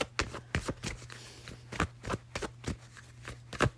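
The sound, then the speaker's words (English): Cards shuffled and pulled from a deck during a card reading: a quick, irregular series of crisp snaps and papery rustles, some louder than others, with no talking. “Let me pull a few more cards before I let you go.”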